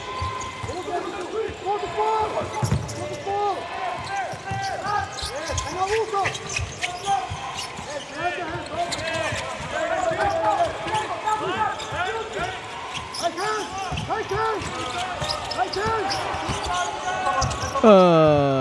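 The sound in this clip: A basketball is dribbled during a game, with many rapid, regular bounces continuing under a commentator who talks throughout.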